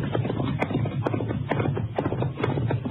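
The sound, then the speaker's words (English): Pony hooves clip-clopping at a steady, even walking rhythm as the animal comes toward the listener out of a gully, muffled and thin in tone. “There's Whitaker now on a pony coming toward us. Just going out of the gully.”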